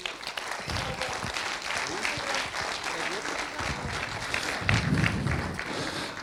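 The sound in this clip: Audience applause welcomes a stage manager at a gathering, a dense, steady patter of many hands clapping throughout that swells briefly louder toward the end.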